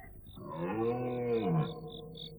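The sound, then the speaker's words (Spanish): Deep bellowing of deer calling to each other at night: one long, drawn-out harmonic roar that rises and then falls in pitch, with faint short high chirps repeating in the background. “el bramido de los ciervos, que se llamaban unos a otros”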